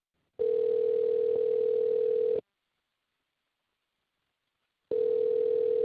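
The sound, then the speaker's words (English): A telephone line tone while a call is placed: two long, steady, even tones, each about two seconds, separated by a long silence, in a regular ringing pattern. “Let's call Whitney right now, okay?”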